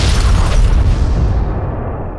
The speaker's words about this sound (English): And as you get to the top of the hill, you can see the crypt just explode behind you as you're running away from it.